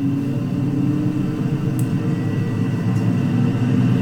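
An airplane takes off with its engines producing a loud, continuous low rumble that holds steady without breaks throughout.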